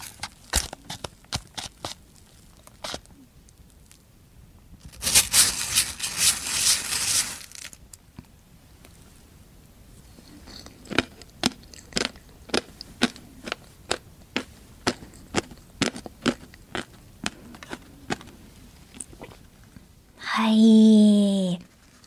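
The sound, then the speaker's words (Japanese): Sea urchin (uni) is eaten at close range: many sharp, wet mouth clicks and soft smacks, with a louder rustling burst early on and a short murmured vocal hum at the end. “ちなみに、ユニは、生まれて初めて食べました。”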